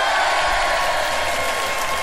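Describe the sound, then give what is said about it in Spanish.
A short burst of applause, an even wash of clapping at a steady moderate level, with no voices and no clear start or end. “Realmente eso merece un buen aplauso.”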